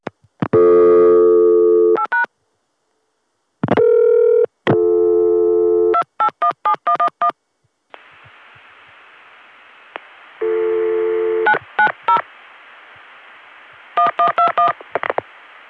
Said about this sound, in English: now let's listen to the local vacant code recording on 7.